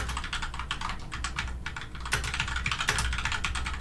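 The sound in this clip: Typing a message on a computer keyboard: rapid, irregular key clicks run continuously, with brief pauses and a few louder strokes.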